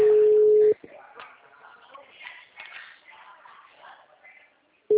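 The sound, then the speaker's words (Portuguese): Telephone busy signal on a line: a steady single-pitched tone sounds for under a second at the start, then faint muffled rustling and noise fill the gap before the same tone briefly returns at the end. “Alô? Oxe. O número está ocupado.”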